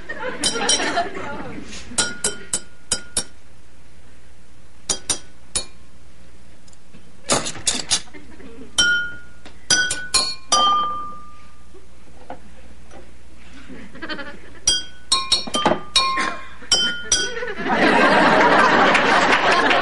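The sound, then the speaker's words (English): Flatware and spoons clink as they are put away, many sharp, bright metallic taps coming in short clusters separated by quiet gaps, some single and some in quick runs. “Guess I ought to start with the flatware. Now, where would be a really fun place to keep the spoons?”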